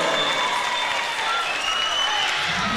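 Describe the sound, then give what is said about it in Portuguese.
Audience applause welcoming a performer onto the stage at a live radio-hosted event: dense, steady clapping from a crowd that holds at an even level for the whole clip. “Bora aplaudir!”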